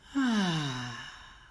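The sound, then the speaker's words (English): A breath out during a guided breathing exercise: one soft, voiced sigh whose tone slides downward in pitch and slowly fades, faint and alone. “Breathe in and out. Breathe in and out.”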